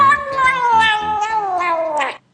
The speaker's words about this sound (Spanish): Espérate que todavía falta el gato.